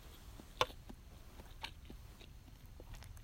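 Soft chewing while eating pasta with cod roe: quiet, moist mouth noises with a couple of sharper bites, heard alone without talk.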